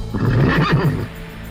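A horse neighing, one of the crusaders' mounts on a long summer ride across Europe in stifling heat; a single rough, throaty whinny of about a second, loud and alone, then fading away.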